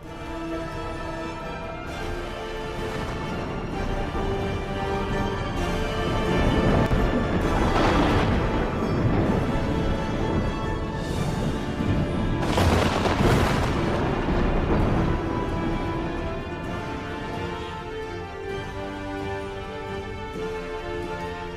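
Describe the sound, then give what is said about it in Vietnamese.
Thunder rumbles and booms in a storm with lightning: a long, continuous low rumble with a couple of louder booming surges. No voices are heard. “Tiếng sấm vang chớp giật, khung cảnh trở nên chói lòa cả mắt. Bên tai của mọi người vang lên tiếng đùng đùng”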